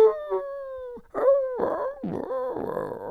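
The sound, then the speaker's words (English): A voice imitates coyotes howling, standing in for a churning stomach: a few drawn-out, wavering yowls, the first long and gently falling, the later ones rougher and breathier, loud and alone. “it sounds like coyotes. I know that sounds crazy, but it really does sound like coyotes.”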